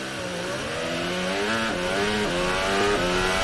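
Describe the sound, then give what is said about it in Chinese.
Onboard a Formula 1 race car at the start, an engine screams loudly and steadily through the opening left-hand turns, its high whine stepping up and down in pitch as the gears change. “再来看一下，这是从兰多诺里斯的这个车上所拍摄到的画面，马上就向左一个转向之后进入到一号弯、二号弯的连续弯。”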